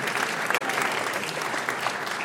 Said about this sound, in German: Das wäre ein extra Applaus.